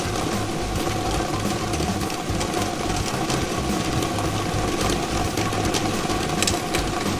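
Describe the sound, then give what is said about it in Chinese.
A lottery draw machine spins thirty numbered balls in a steady, continuous mechanical whirring rattle. It holds an even loudness throughout, with no voices. “大家看到摇奖机已经正式启动了，我们看到30个号码球正在飞速的旋转着”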